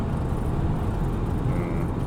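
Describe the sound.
A car hums along on a long drive home, giving a steady low road rumble that holds even throughout, with no voices.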